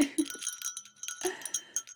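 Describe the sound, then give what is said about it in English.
Little bells on high-heeled pump shoes jingle faintly, a scatter of light, bright metallic tinkles coming in short clusters. “And look how cute these little bells are.”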